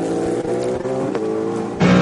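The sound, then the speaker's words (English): A Cadillac LMDh prototype race car engine, heard through team radio as a loud, buzzing drone rich in harmonics, its pitch shifting slightly before a steadier, louder tone takes over at the end. “Nato's Cadillac looks the quicker of these two LNDH cars. Let's hear his team radio.”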